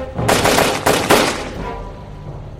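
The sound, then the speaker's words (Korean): Matchlock muskets firing during a naval battle between warships: a few loud, rapid shots merge into a crackling volley, then trail off into a fading rumble. “저들이 조총을 쏘고 있다.”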